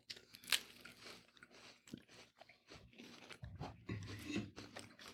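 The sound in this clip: Crunching and chewing of soy crackers: a few sharp bites, then many irregular, fairly faint crunches with no talk.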